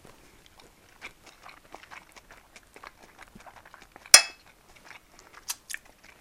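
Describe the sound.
Someone eats fried rice with cutlery: faint, scattered chewing and mouth clicks, with one sharp utensil clink partway through and a couple of softer taps near the end.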